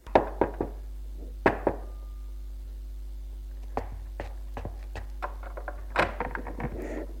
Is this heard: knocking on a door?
yes